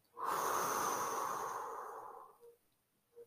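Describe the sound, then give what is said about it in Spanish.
One long, deep breath drawn in through the nose and let out through the mouth as a soft, airy whoosh that slowly fades. A couple of faint, short breath sounds follow. The whole sound is quiet. “te pido que cierres los ojos y respiremos profundamente. Agarra aire por la nariz y sácalo por la boca.”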